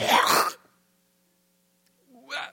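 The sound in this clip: A voice imitating throat clearing just before spitting: a harsh, raspy burst, then a pause of about a second and a half, then a second, shorter rasp.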